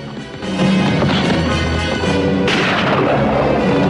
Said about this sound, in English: Taylor takes aim again and again, but Douglas skillfully evades the gunfire.